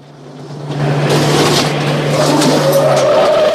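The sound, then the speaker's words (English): Tires skid loudly as an ambulance swerves across a road into oncoming traffic. A steady engine hum leads into a harsh, sustained screech that swells after a moment and holds, with a higher whine emerging near the end. “swerves the ambulance across the road into the oncoming traffic”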